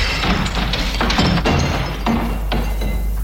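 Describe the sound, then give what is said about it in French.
A window pane is smashed to get in through the window. Several harsh, crashing bursts of breaking glass follow one another irregularly, loud and bright over a dense noisy background. “Ah, oh, tant pis, je casse un carreau, j'entre par la fenêtre.”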